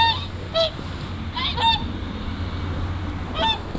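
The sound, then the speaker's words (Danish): A flock of swans calls near the Jyske Ås monument in Denmark, giving several short, nasal honking notes spread unevenly over a steady low rumble. “Nogle fine flok svaner, der kommer der.”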